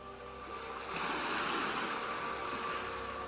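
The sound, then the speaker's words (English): An ocean wave surges over a rock and draws back as a steady, rushing wash of surf that swells toward the middle and then eases slightly, with no voices. “An ocean wave bulges pink over the rock, pulls back, slow sighing.”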